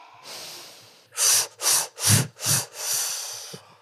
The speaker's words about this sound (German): Und wenn ihr das nächste Mal einatmet, dann wie eine Lokomotive ausatmen